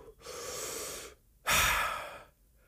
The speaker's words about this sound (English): Let me just catch my breath here because I talk so fucking fast.